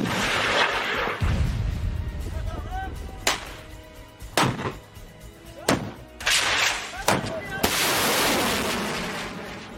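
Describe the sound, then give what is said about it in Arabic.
Artillery shelling a hillside of fortified fighter positions at Jabal Talaat Musa: several heavy booms burst out over a continuous rumbling roar. “مع بدء تحرك القوة باتجاه التلة الوسطى لجبل طلعت موسى، أعطي الأمر لقواعد النار بالرماية على كامل امتداد التلة ومحيطها حيث تنتشر دشم وتحصينات المسلحين.”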